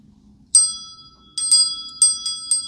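Wind chime bells struck by a clapper, giving several bright, high-pitched metallic rings at irregular intervals, each ring fading briefly before the next strike.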